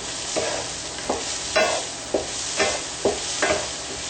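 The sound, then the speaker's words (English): Cashews pop while browning in a pan. Several sharp pops break through at irregular intervals over a steady frying sizzle. “the cashews will start to brown lightly. I hear the cashews starting to pop, which means we're getting close to being done.”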